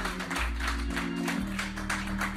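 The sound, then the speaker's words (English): A church audience claps rhythmically in praise over music with a deep bass line. The beat of the claps holds steady throughout. “Clap your hands and give the Lord a hand clapping.”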